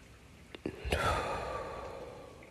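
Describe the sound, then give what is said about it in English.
A slow breath drawn in during a stress-relief breathing exercise. After a couple of small clicks it becomes a soft, airy rush that holds steady and faint to the end. “You inhale, hold it,”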